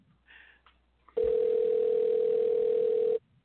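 A ringing tone on an outgoing phone call: one steady, mid-pitched tone that holds for about two seconds and then stops abruptly, preceded by a few faint, brief sounds.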